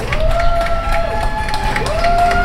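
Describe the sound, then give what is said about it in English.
People clap and cheer from their windows for doctors and nurses during the nightly 7 p.m. tribute, a steady mass of applause mixed with scattered shouts. “Every night at 7 p.m., people are applauding from their windows to show their appreciation for doctors and nurses.”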